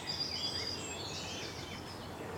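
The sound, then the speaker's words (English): Garden warbler singing on a morning ramble in the Brecon Beacons, a faint, long-winded, scratchy warble of high notes that runs on without a break. “The longer-winded scratch here. It's the garden warbler.”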